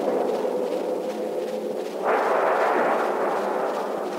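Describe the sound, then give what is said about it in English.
A cannon shot strikes a ship and blows it apart: a steady roar surges suddenly about halfway through into a louder, broad explosive rumble that keeps going to the end. “A direct hit. She's blown to pieces. Fire! Where's the man that fired that shot?”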